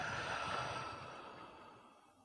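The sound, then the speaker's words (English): A slow, deep breath drawn through the nose and mouth: one long, soft, airy rush that holds steady and then gradually fades, heard alone without voices. “Take a slow, deep breath in through your nose”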